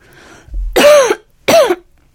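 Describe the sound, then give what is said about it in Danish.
Two harsh coughs from a person with a sore throat, each a loud, rough burst, separated by a short pause, with the first slightly longer than the second. “Jeg hoster og har vondt I halsen.”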